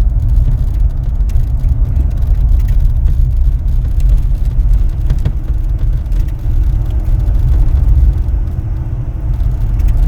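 Steady low rumble of a car being driven, a constant engine and road drone that holds at an even level throughout with no talking.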